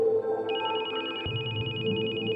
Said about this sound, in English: My phone began to ring.